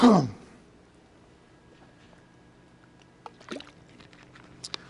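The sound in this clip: A single loud cough bursts out at the very start, then near silence follows with only faint scattered clicks.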